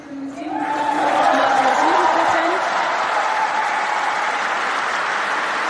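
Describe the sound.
Cheering and sustained applause from a crowd as an election result for Janine Wissler is announced, a loud, steady roar of clapping and shouts, with a voice briefly audible at the start.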